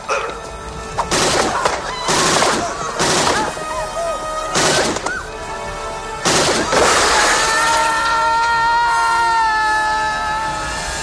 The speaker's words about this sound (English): Nice shooting, son.